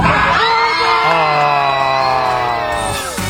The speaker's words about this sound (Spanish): Oye, están todos celebrando. Están todos celebrando.